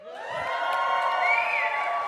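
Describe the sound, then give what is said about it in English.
A church audience at an Easter service cheers and whoops, a loud crowd roar held steady for about two seconds with high shouts riding on top. “You know what? I want to do this again because it was so fun. Let's try this cheer again.”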